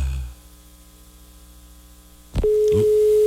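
A steady electronic telephone tone from a failed phone call starts with a sharp click after about two seconds of faint line hum, then holds at an even, fairly loud level to the end.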